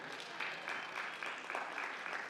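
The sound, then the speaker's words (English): Faint crowd applause for the workers who installed the air conditioners: a steady wash of many hands clapping, with a few slight swells over its short length. “how about a round of applause for the guys that put in the air conditioners?”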